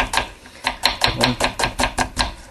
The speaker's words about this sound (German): So, eben die Zwiebeln. Ich schneide die eben in Scheiben.